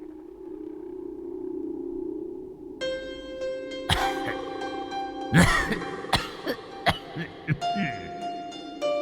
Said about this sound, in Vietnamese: Ở phía xa xa, vẫn còn vọng lại tiếng ho khổ khổ của lão nhân.